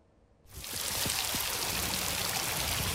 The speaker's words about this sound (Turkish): Sağanak yağış hayatı felç etti. Yollar göle döndü.